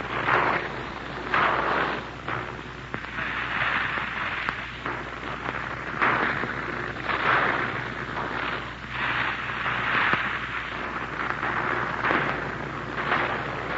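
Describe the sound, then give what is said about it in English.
Anti-aircraft gunfire from a ring of city defenses, heard as muffled, rumbling bursts that swell and fade at irregular intervals through a constant hiss, with no speech. “It's a little too early to tell just where that anti-aircraft fire is coming.”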